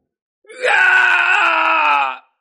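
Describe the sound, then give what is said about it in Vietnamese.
A man screams in agony in a single sustained, loud cry lasting under two seconds. It starts with a brief rise, then holds a steady, strained pitch before cutting off, with no other sounds around it. “Tên thái cổ vương kia kêu lên thảm thiết”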